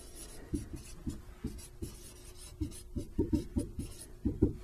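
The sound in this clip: Handwriting while working a calculus chain-rule derivative, a faint string of short scratchy pen strokes in an uneven rhythm that grows busier toward the end.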